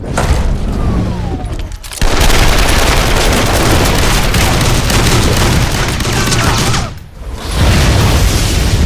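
Loud, relentless automatic gunfire forms a dense, continuous roar that is broken by two brief pauses.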